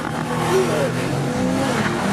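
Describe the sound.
A 659-horsepower car makes a launch-control start and accelerates hard, its engine giving a steady, dense roar throughout.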